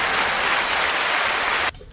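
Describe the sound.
Studio audience applause, a thick and even burst of many hands clapping that cuts off abruptly near the end and leaves near silence.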